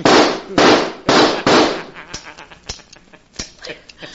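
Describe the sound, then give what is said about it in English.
Gunshots ring out in a radio drama: four sharp, loud bangs in quick succession, followed by fainter scattered clicks and pops. “I've shot you. Evidently, you missed. Well, I won't miss this time.”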